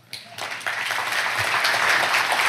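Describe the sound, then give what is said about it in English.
Audience applause greeting a professor as he is welcomed to speak at a church, starting from a quiet moment and swelling quickly into loud, dense, sustained clapping that keeps building toward the end. “Well, please stay seated. No standing ovations are necessary for me.”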